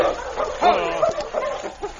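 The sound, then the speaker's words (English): A dog that has lost a scent trail in a busy mining settlement whimpers, giving high, thin whines broken by a few short yips and barks. “I'm afraid he's lost the trail. Once a dog gets to a busy place like the Forks, it's pretty hard to untangle all the different scents.”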